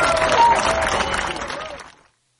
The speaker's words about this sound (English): One big round of applause.